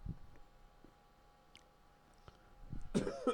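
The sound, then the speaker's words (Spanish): A single faint cough near the end, a short rough burst after a quiet stretch with only a few soft clicks. “ya empezamos tosiendo”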